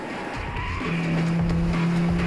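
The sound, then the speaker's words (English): Cars ramming and swerving across a road in a chase: a roaring engine with a sustained tire squeal that builds in loudness and holds steady. “The henchman accelerates, ramming his car into Sunny's, and the two cars swerve across the road.”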